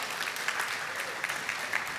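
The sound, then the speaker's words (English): A church audience applauds at a centennial celebration, a steady wash of many hands clapping at even loudness without a clear break. “Come on. We should clap for that.”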